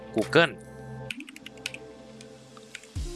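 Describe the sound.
Quick, light keystrokes on a computer keyboard while typing a web address into a search box, after a short bit of speech.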